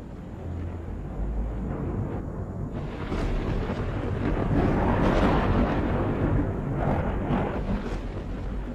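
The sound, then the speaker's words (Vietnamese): Thunder from lightning strikes in a storm, with bolts hitting a storehouse in a town: a loud, continuous low rumble that swells toward the middle and then eases slightly, with no voices. “ở trên trời cao, những tiếng nổ đoàng đoàng vang lên, là những tiếng sấm sét cắt ngang bầu trời.”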